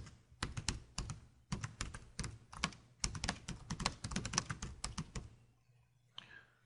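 Someone types on a computer keyboard while entering an email subject line: rapid, crisp keystrokes in several quick bursts with brief pauses, then the typing stops.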